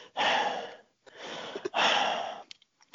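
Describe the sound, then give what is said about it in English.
A man's voice imitates slow, calm breathing, like a player sitting in a changing room after a match: long airy breaths drawn in and let out at an unhurried pace, with a brief pause between them. No words. “he'd sit there, he'd take his pads off, fold his pads up, straps, gloves in the bag. And he'd just sit there, breathe. And you could hear him, he'd go,”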